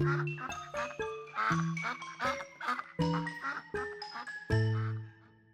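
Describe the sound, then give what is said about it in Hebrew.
Ducks quack as a mother leads ten ducklings across railway tracks, heard as many short, bright, rhythmic quacks mixed with tinkling tones. “את פסי הרכבת חוצים ברווזים. אמא בראש, אחריה הולכים בשיירה עשרה אפרוחים.”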